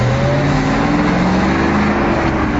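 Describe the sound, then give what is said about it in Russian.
A car engine roars loudly as the car pulls away and drives off, a steady continuous drone whose engine tones climb gently in pitch, with no voices. “Машина рванула с места и поехала дальше.”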